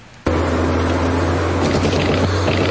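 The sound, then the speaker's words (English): A car driving along a road at night: a constant road rumble and broad hiss with a low, steady drone. It begins abruptly and holds evenly, with no voices. “This is the sound of someone driving along a road at night.”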